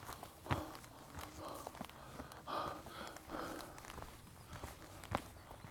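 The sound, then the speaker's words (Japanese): Footsteps of someone walking outdoors on a hillside path, faint and irregular, with a few firmer steps standing out from soft scuffing and light breathing. “うん、こっちに歩いてみよう。”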